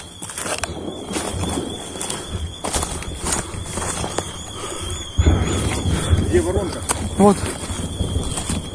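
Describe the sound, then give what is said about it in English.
Footsteps crunch over broken debris around a shelled hospital in Ukraine, a few irregular scraping steps beneath a man's speaking voice, with a brief high squeal near the end. “You can hear their feet crunching on the broken objects, the debris surrounding the hospital.”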